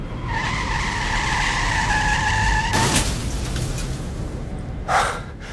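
A car skids and crashes into a bollard: a long, steady high-pitched tire squeal holds for a few seconds, then breaks into a sudden loud crunching impact, followed a couple of seconds later by another short burst of noise.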